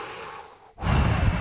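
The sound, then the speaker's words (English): Deep breathing from a person lying down, sweating and feeling ill: a soft, airy breath fades to a brief pause, then a louder, rushing breath follows and carries to the end, with no talking. “I'm just laying there doing that, you know, doing a little mod style deep breathing shit.”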